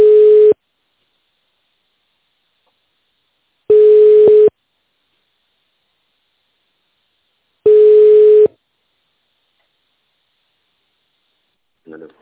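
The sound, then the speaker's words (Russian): A telephone line tone plays while a caller waits on hold: three long, steady single-pitch beeps at even intervals, separated by silence. A brief faint sound follows at the very end. “Здравствуйте. Оставайтесь на линии. Вам ответит первый свободный сотрудник.”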